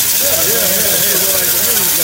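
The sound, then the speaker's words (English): Loud, steady whirring hiss from the motor of a bladed machine in an indoor growing setup, holding level throughout while voices talk over it. “Rotate the blades. It's going to get loud for a second, but you have to put the motor on.”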